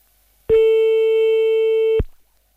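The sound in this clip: Telephone busy tone after a call is cut off: a single steady, unbroken electronic tone lasting about a second and a half, loud and alone, with no voices.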